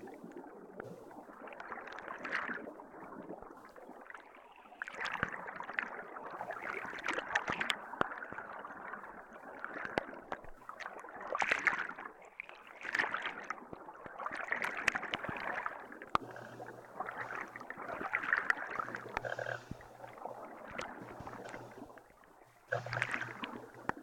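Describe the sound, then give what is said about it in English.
River water flowing gently downstream with a steady, even wash of rushing and lapping sound, soft throughout with mild swells in level and no voices. “taking in all of the scents, smells, and sounds as the current slowly brings you downriver.”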